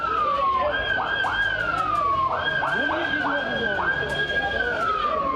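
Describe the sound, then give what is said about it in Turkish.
An ambulance siren wails on a street in Ümraniye, Istanbul, its loud tone sweeping up and down in repeated glides, continuous over rumbling background noise and voices. “Ambulans geldi, müdahale edemeden gitti ambulans.”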